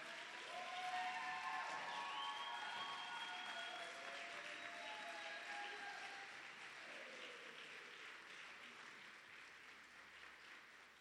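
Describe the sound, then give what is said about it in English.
A church audience applauds with a continuous wash of clapping that stays steady at first, then gradually thins and fades toward the end. “Let's put our hands together for us. Let's welcome.”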